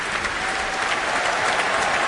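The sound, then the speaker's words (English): Applause for the horn section of the Berlin Philharmonic at an orchestral concert: dense, steady clapping from a large audience that holds at an even level throughout, with no speech over it. “And now cheers for the horn section under the principal horn, Stefan Dohr.”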